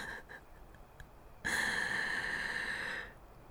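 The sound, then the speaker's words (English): A deep, drawn-out inhalation lasts about a second and a half. It is a loud, breathy rush of air that stops abruptly, preceded by a few faint clicks. “Yeah, inhale. Don't just hold it in your mouth, you fucking dork. Here you go. Breathe in.”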